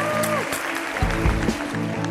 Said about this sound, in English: Do I get that walk-off music? Yeah, you get it. And a round of applause. Another round of applause.